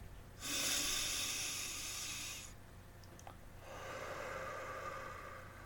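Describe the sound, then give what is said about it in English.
One slow breath: a soft, breathy inhale lasting about two seconds, a short pause, then a long, gentle exhale. There is no speech. “As you breathe in, be aware of the air that comes into your body and it changes your posture, fills up your lungs, and you breathe out the air that you do not need.”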